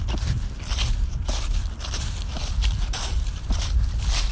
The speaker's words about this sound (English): now walking across a big field to find the next geocache